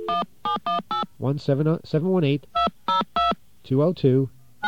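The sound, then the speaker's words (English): Touch-tone telephone dialing: several short, bright beeps in two quick clusters, with a person talking between them. “All right, you're going to hear a dial tone. Don't panic. We're just going to try something here. All right, let's get our dial tone, and we're going to dial”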